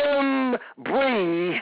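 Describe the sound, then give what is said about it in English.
A man groans aloud during an impassioned sermon, making two long, drawn-out moaning tones separated by a short break. The second tone wavers and sags in pitch before trailing off. “I'm getting angry, amen to God. I'm groaning, yes, I'm groaning, but I'm not, amen, feeling sorry for myself”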